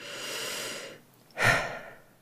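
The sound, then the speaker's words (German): Deep breathing in and out during a guided posture and breathing exercise: a long, soft, airy breath, a short pause, then a sharper, louder breath that fades away. No talk is heard. “Atme einmal bewusst tief ein und aus.”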